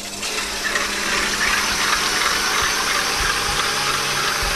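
An electric mixer whips chilled cream for a layered peach dessert, producing a steady, fairly loud whirring motor drone with dense churning noise that continues unbroken throughout.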